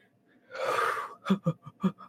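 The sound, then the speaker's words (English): A deep breath drawn audibly for about half a second, followed by four or five short, clipped voiced bursts. “Oh, not the deep breath.”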